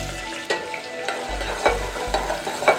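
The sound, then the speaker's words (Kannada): Onion sizzles steadily in a hot pan with fennel, star anise, bay leaves and dried fenugreek leaves, while a spoon scrapes through it in several stirring strokes. “Fry ಆಗಿದೆ, 1 ಈರುಳ್ಳಿನ ಹಾಕ್ತಾಯಿದ್ದೀನಿ.”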